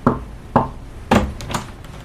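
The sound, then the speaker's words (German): Knocking on a door: a few firm raps spaced about half a second apart, each a short sharp thump with no voices around it. “Klopfen Sie dreimal, dann kommen Sie rein.”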